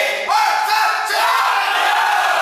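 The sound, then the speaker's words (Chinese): Crowd cheering in the stands at a football match between Shenyang and Harbin: a dense, steady roar of many voices, with shouted calls rising over it. It stays loud throughout. “看台上，他的家人和队友也在特意赶来为他加油。”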